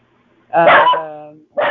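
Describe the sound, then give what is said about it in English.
A dog barks at a bird, giving one drawn-out, whiny bark that slides slightly downward in pitch, then a second short bark after a brief gap. “Quit barking at that bird. You want that bird.”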